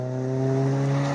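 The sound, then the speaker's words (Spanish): Car engine accelerating hard up a road at a bend, after rain. A steady, droning engine tone swells slightly louder over about a second, with no voices. “Bueno, sube una moto a todo trapo. Bueno, supuestamente una moto. Supuestamente una moto. Mira. Ah, no, es un coche.”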